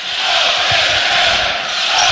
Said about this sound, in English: Go Big Red, just echoing off the walls here in Oklahoma City.